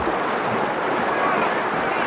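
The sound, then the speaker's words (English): Steady rushing water and wind-like noise as horse teams pull taut ropes to tow three rafts, each carrying a covered wagon, across a shallow river; the sound is even and continuous, with no distinct events. “As men drive the horses, ropes stretching across the river pull taut and tow three rafts across. Each raft transports a covered wagon.”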